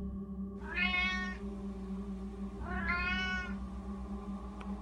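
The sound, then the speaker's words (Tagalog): A black cat meows twice, two drawn-out mid-pitched cries about two seconds apart, heard alone over a steady low hum. “Itong pusang ito, nasing itim ng madilim na hating gabi, ay iba.”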